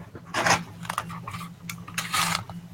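A tape measure is pulled out with a scraping, ratcheting rasp in a few short bursts, over a steady low hum.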